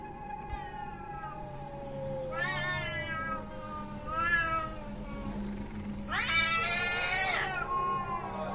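A cat standing at a window growls and yowls in a few drawn-out, wailing calls with strong harmonics, the last the loudest and longest, over a faint steady high whine.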